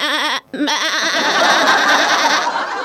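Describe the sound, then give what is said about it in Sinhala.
Voices imitate a goat's bleat, giving quavering, wavering cries with a rapid wobble in pitch, then break into a dense, noisy jumble of overlapping voices. “එළුවා කොහොමද කෑ ගහන්නේ?”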